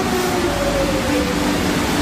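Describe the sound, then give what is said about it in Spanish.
Steady rumbling roar of a metro train ride in Madrid, a continuous loud wash of noise with a faint low hum running beneath it and no voices. “Trayecto de metro en Madrid.”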